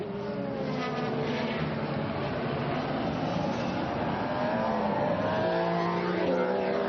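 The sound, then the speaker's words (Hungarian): Formula 1 cars accelerate out of the last corner onto the start-finish straight during qualifying. A loud, dense engine howl holds steady and then climbs in pitch near the end. “itt pedig a Bottas és a Ricciardo eset, ezt ugye láttuk az élő közvetítésben is, hogy szinte egyszerre gyorsítottak ki a célegyenesben az utolsó kanyarból.”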